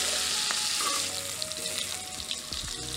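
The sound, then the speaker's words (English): Scallops sizzle steadily in a frying pan as they are turned, giving a dense, even hiss of hot fat with a few small pops and clicks scattered through it. No one speaks. “Okay, so I'm going to turn our scallops now. Looking magnificent.”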